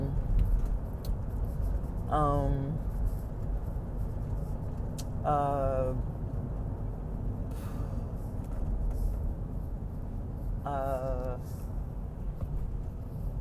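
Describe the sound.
Steady low road rumble inside a car while driving, with a few brief vocal sounds rising over the constant noise.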